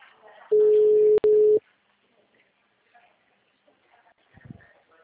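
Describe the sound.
A phone line's busy tone follows a dropped call: a loud, steady, mid-pitched beep lasting about a second, broken by one brief gap, then only faint background noise.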